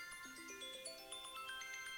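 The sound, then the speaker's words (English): A mobile phone ringtone plays a faint electronic melody of bright, stepped notes that climb in pitch and repeat, sounding alone with no voices. “Oh, is that my phone? I'm very sorry about that. But I have to carry it when I drive.”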